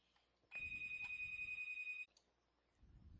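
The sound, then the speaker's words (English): A telephone rings on several phone lines, heard as one sustained, bright electronic ring lasting about one and a half seconds. It cuts off abruptly, leaving quiet low rumble behind. “I had to pause it. But wouldn't you know, that person trying to call me on every single phone line in here was trying to tell me that my interest rate had gone down on a credit card”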